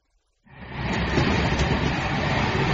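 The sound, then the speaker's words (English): A train running, its loud, even rumble starting abruptly after a brief silence and holding steady, broad and noisy, to the end. “Hello, I'm on the train now”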